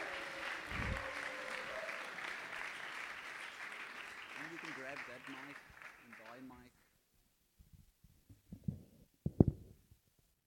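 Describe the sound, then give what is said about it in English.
Audience applause welcoming a panel called to the front at a church discussion evening. Dense, steady clapping continues for several seconds, then cuts off abruptly, and faint talk follows. “Let's give them a hand.”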